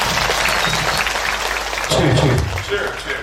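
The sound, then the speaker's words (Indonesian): An audience applauds a singer, a thick wash of clapping mixed with voices that surges louder partway through. “Tepuk tangan untuk Mike Tra.”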